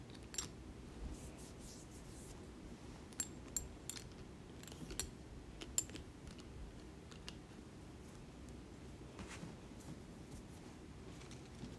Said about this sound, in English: And then I'll open up an alcohol wipe. Put some alcohol on my finger.